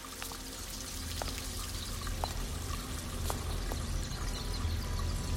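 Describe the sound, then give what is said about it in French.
Water runs without pause into eight sinks: a steady, dense splashing rush that holds at an even level throughout, with no voices. “vous découvrez huit éviers dans lesquelles l'eau ne cesse de couler.”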